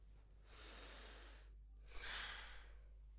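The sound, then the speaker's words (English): One deep breath drawn in through the nose and let out through the mouth: a soft, airy inhale about a second long, a brief pause, then a fuller, lower exhale of similar length. Quiet throughout. “We are going to take one deep breath together to start. I want you to breathe in through your nose and out through your mouth. Let's do it together.”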